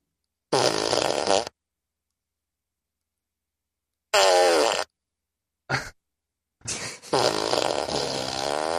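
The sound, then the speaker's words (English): Fart sound effects from a novelty machine that cycles through different recorded farts: a few separate bursts of varying length, some forceful and wet-sounding, broken by short silences, with a longer rumbling one at the end. “Oh, there's multiples, yeah. Apparently there's hidden farts in this machine.”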